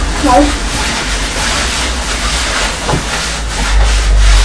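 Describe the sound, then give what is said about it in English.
A surface is rubbed with a colourful duster and polish, giving a continuous dry, scratchy rubbing with a few sharper strokes; a brief voice sound comes early on. “I have some more what? Some more polish. Yeah, I put you some over here. You polished that bit really good for me.”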